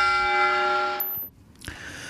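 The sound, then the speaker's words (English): Post office bells chiming: a sustained ringing tone with several steady overtones holds for about a second, then cuts off, leaving near quiet with a faint short knock afterward. “That was the bells from. Was that the post office? Post office bells? I think so.”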